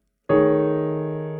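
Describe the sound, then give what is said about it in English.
A five-note diminished voicing chord is struck once on piano after a brief silence, then rings on with a full, steady tone that slowly decays. “So those five notes played together sound like this.”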